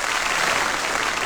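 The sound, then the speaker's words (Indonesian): Applause from an audience celebrating Malaysia's Asian Games contingent reaching its target of six gold medals: a dense, steady wash of clapping that stays even and fairly loud throughout. “Kita tepuklah lagi.”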